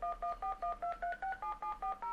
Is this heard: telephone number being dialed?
yes